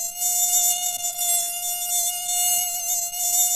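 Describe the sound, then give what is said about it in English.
A mosquito buzzes in a steady, high-pitched whine with a thin, even tone that holds throughout, alone and without a break. “The mosquito. It carries diseases that kill and sicken millions of people every year.”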